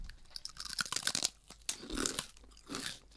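Crisp crunching and chewing of a hard, salted rice-cracker-style snack mix with a strong shrimp flavour, many sharp crunches in irregular bursts at a fairly low level, with no talk.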